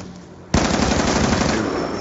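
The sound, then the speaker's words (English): Rapid automatic gunfire in a video game with an insta-kill power-up active, erupting suddenly after a short quiet lead-in and continuing as a loud, unbroken stream of shots to the end. “Oh, I'm using a lot of bullets considering this still insta kill up.”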